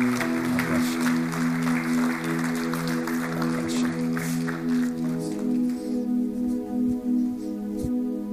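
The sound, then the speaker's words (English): Applause from a church audience during a worship service, a continuous dense patter of clapping that lasts the whole time over sustained musical chords. “Let's give our God a hand as we worship him.”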